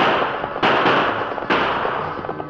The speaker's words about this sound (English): emptied his gun at the masked figure following him, but the shots went wild